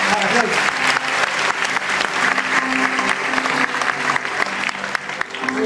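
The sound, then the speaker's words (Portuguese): Applause from a church audience: dense, steady clapping from many hands that fills the whole clip at an even, fairly loud level, with a faint sustained tone underneath. “Você pode aplaudir a vida do apóstolo César.”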